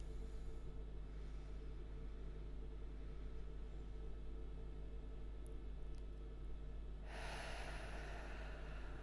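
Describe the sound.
Deep diaphragmatic breathing during a relaxation exercise, faint under a steady low hum, with an airy breath swelling into a clearer hiss near the end.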